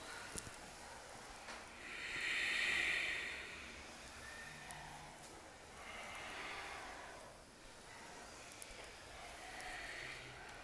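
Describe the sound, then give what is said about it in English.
Faint ujjayi breathing in a yoga class holding chair pose: a few slow, drawn-out breaths through the throat, each a soft oceanic hiss that swells and fades in a long, even rhythm. “Chair pose. Ujjayi breath to connect you here.”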